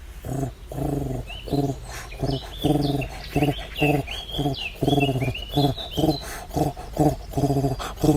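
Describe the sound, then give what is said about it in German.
A turtle dove calls with many low, throaty purring coos in a steady rhythmic series, while other birds chirp and twitter higher above. “kam die Turteltaube ran, dass sie wirklich für alle deutlich hörbar war”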